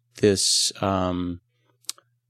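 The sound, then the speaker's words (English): Mouse clicks on the Insert menu in Microsoft Word come as a few short, quiet clicks after a voice speaks. “So then I'm going to click insert, and then”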